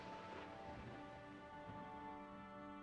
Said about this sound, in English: that's lightning and thunder. Oh my gosh. It's raining out there.